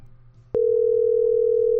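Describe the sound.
A telephone dial tone while placing a call: a sharp click, then a loud, steady, unbroken mid-pitched tone holding to the end over a low hum.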